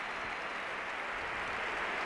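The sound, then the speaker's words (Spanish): Muted stadium crowd applause at a Real Madrid football match as a Brazilian player walks off after being substituted, faint and even, a soft continuous wash rather than a loud ovation. “Se marcha andando el futbolista brasileño del Real Madrid. Le aplauden, tampoco mucho, no es una ovación atronadora.”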